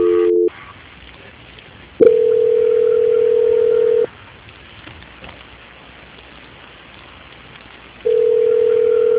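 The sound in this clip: A steady single-pitch telephone tone plays during a call transfer. It comes in a few long bursts separated by pauses, over faint hissing line noise.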